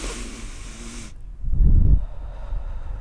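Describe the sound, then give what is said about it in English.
A single deep breath, taken as a loud, breathy rush of air that swells and then fades away, after a quieter stretch of low hum. “Take a deep breath”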